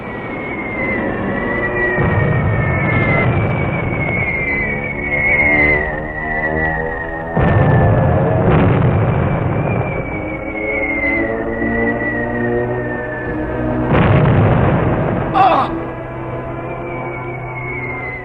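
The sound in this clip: Shelling in a war drama battle scene: long, high whistles slide slowly downward while a few deep, rumbling blasts burst out beneath them, with no voices.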